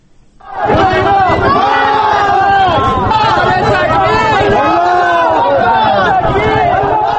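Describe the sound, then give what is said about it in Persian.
Hundreds of Kabul residents shout in protest in front of the Iranian embassy, condemning executions of Afghan prisoners in Iran. After a brief quiet moment, a loud mass of voices swells up and sustains in overlapping chanting and yelling. “این صدای صدها تن از باشندگان کابل بود که با گرد همایی اعتراض‌آمیز در مقابل سفارت ایران، اعدام افغان‌های زندانی در ایران و سایر موارد بدرفتاری با مهاجرین افغان در آن کشور را محکوم کردند.”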